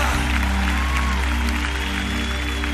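A church audience claps continuously during a worship hymn, a dense, even patter of many hands that keeps one level throughout.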